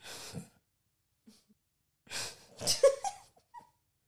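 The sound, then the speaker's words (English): Heavy, exhausted breathing comes in a few quiet bursts of breathy puffs and gasps, separated by short silent pauses. “That is the sound of exhaustion.”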